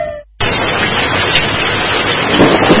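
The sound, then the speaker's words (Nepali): Heavy rain pours down as a dense, loud, steady hiss that begins abruptly after a brief moment of quiet and keeps going without a break. “पानी त धेरै ठुलो पर्यो।”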